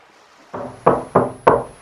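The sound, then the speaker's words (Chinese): Knocking on a door: four sharp raps in a quick, slightly uneven rhythm, the first softer than the three that follow. “敲门走了进来”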